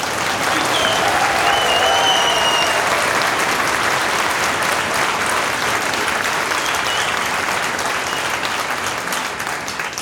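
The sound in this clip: An audience applauds in a university hall, with dense, steady clapping that stays loud and unbroken for about ten seconds, without any talk over it.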